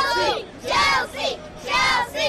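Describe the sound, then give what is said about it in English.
Soccer fans at a match, including Chelsea supporters, cheering and chanting for their team in several loud shouted bursts separated by short pauses, the voices raised and tonal. “Or people cheering for their favorite team. Don't worry, Chelsea fans, I also got cheers for you.”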